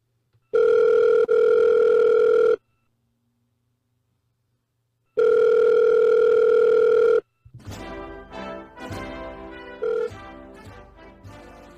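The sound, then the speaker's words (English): A telephone ringback tone plays while a call is being placed. Two long, steady electronic tones of about two seconds each are separated by silence, then a stretch of busier, varied tonal sounds follows. “I have on my notes that we have a phone call. Yeah, I got them, I think, on the line. You got to dial it.”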